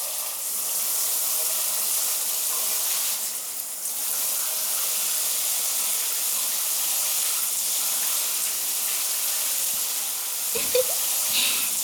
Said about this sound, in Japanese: シャワーのお湯で頭をゆすいでいきますね。頭の左側をゆすぎますね。